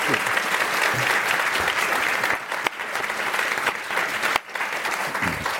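Audience applause welcoming panelists onto the stage at a legal education panel discussion: dense, steady clapping that stays loud for the whole stretch, with a couple of brief dips in the middle.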